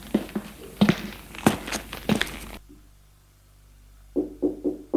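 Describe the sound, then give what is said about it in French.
Footsteps of someone going up to a bedroom. A series of thudding steps is followed by a quiet pause, then a few more steps, moderately loud with no voices. “Elle monte à la chambre de Luc.”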